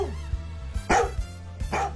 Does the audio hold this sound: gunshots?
no

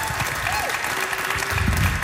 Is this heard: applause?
yes

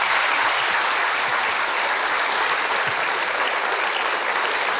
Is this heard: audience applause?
yes

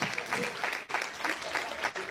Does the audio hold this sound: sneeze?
no

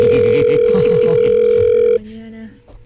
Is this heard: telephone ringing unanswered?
yes

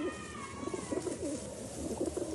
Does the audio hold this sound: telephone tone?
no

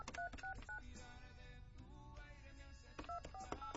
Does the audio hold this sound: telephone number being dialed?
yes

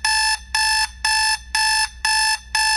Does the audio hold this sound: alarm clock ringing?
yes

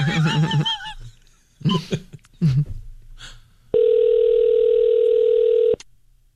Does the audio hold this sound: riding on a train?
no

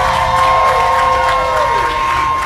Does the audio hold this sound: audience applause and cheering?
yes

